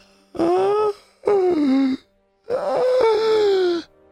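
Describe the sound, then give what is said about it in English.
A voice imitates an eerie wailing sound from within flesh: three drawn-out moaning wails, each falling in pitch, the last one the longest, with short silences between them. “you hear this kind of wailing sound, not coming from Dreven”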